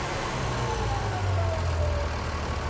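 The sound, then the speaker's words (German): An engine on a post-repair test run throttles back to idle, a steady, loud, low rumble whose tone sinks gradually as the revs drop. “Du kannst Gas wegnehmen. Lang, ne? Gehen wir runter auf Standgas.”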